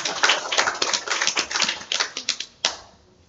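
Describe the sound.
Clapping from a group at a Christian gathering, many quick, irregular hand claps in a loose burst that ends with one sharp clap and then fades.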